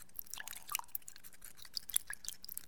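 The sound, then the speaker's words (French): Soft drips and wet squelching as wet sandpaper is dipped back into water between rounds of sanding a lacquer surface; many faint, quick ticks and splashes with no talk. “Donc, je remets mon papier dans l'eau.”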